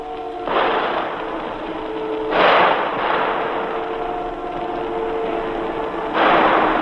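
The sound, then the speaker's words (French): Gunfire crackles during a 1944 attack on people sheltering inside a church, a continuous noisy rattle broken by about three louder, harsher bursts, with no voices. “Les coups de feu crépitent toujours.”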